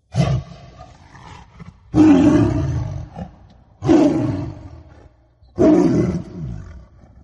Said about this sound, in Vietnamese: trong rừng đêm vắng bỗng vang lên tiếng gầm rú man dại của chúa Sơn Lâm.